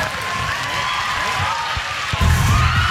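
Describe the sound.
Studio audience on Ellen screaming as NSYNC appear: a dense roar of crowd screams and shouting that holds steady, then swells louder over the last second.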